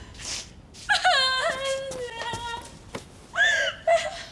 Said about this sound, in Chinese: 行了，行了，行了，别哭了。停！还好意思哭啊？